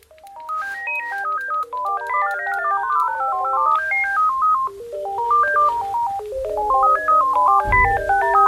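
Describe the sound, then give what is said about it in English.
A phone ringtone plays as a melody of electronic tones, with overlapping note patterns that are out of time and out of tune with each other. The tones run steadily for several seconds, and a low thump is heard near the end. “This is the sound of the phone.”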